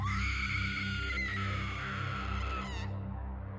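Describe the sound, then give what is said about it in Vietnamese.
A long, high scream rings out across a cold rice field, held steadily for almost three seconds before breaking off abruptly over a low, steady drone. “Tiếp sau đó là một tiếng hét dài vang lên, vang vọng cả một vùng đồng lúa quang lạnh.”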